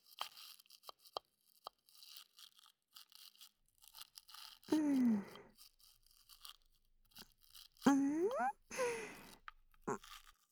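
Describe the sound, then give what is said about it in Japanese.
Toothbrush scrubbing teeth, heard as intermittent scratchy, bristly strokes in short irregular bursts, fairly faint, with a woman's voice breaking in briefly a couple of times. “歯ブラシだと磨きづらいわね。横だとうまいこと磨けないし。”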